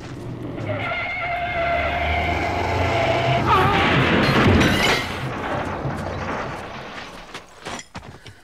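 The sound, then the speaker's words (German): A speeding car bears down on another car and crashes: loud, sustained engine roar and tire skid build to a broad crashing burst midway, then fade into scattered rattles and knocks. “Der verrückte Kerl jagt genau auf unseren Wagen los!”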